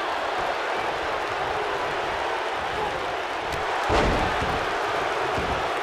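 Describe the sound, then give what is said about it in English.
A wrestling arena audience cheers in a loud, continuous roar that holds steady throughout, with one dull thud partway through. “And listen to this audience.”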